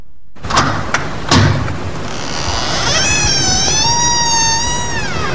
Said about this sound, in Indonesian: Sayang, buka pintunya dong.